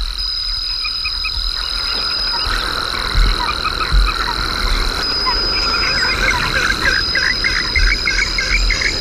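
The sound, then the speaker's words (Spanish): A high, clean insect call rings out as a steady, thin tone pulsing in short repeated bursts, with croaking frog calls around it throughout. “Ahí está. Ese sonido agudo, limpito, de un insecto.”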